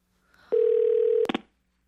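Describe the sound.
A telephone dial tone holds steady and loud, then breaks into three quick touch-tone key beeps as the number is dialed.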